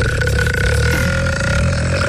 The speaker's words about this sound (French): j'arrête pas de rôter. Tu rôtes, non?